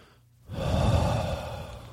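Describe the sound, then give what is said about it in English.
A person takes one long, deep breath: a breathy rush of air that starts abruptly after a short quiet, holds steady, and eases slightly at the end. “Take a deep breath”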